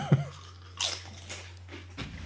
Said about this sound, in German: Aber probier, komm, einen kurz und dann Chio Chip Philly Pizza Tasting.